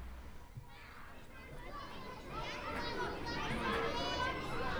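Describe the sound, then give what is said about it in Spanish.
Children shouting and playing in a park: a dense, loud crowd of high-pitched cries, squeals and chatter that swells and grows busier in the second half, with no single voice standing out. “¡Madre mía, qué gritos! Aquí no se puede diferenciar ningún sonido.”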